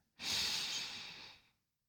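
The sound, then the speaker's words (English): A single deep breath in, drawn slowly as part of a guided calming exercise. The airy, breathy inhale is quiet, lasts a little over a second, and gradually fades. “Just calm down. Breathe with me. In.”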